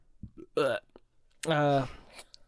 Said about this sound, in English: I don't want to burp during that one. Stop burping, you bastard.